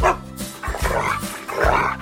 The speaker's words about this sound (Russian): Вот и Алтай, мой верный пес, с вами поздоровался